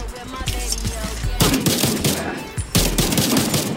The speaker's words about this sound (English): Alright, now I gotta see who shot me. Who was it?